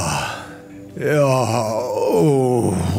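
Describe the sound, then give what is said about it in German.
A man in a sauna groaning and moaning with each breath, a breathy start followed by deep, drawn-out voiced moans with a wavering, low pitch, loud and alone. “Direkt danach kommt der Dauerstöhner. Bei ihm wird jeder Atemzug von einem tiefen, langgezogenen Seufzen und Stöhnen begleitet.”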